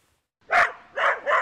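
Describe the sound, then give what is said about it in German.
A Belgian Shepherd dog barks three times during agility training: one sharp, loud bark, a pause, then two more in quick succession, with no talk. “Der belgische Schäferhund Izzy fliegt nur so über die kleinen Hindernisse.”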